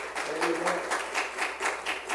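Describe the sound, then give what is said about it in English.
An audience at a Pentecostal church service claps hands in praise, sharp claps in a quick, even rhythm, repeated many times in unison at moderate loudness. “If you love Jesus, give him a great old big hand clap of praise.”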